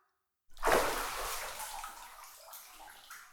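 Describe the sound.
Water splashes in a bathtub as someone bathes: a sudden loud surge breaks a short silence, then settles into softer sloshing and trickling that fades gradually.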